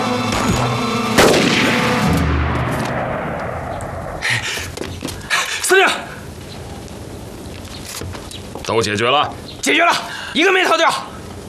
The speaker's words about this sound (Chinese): 你听到外面的枪声没有啊？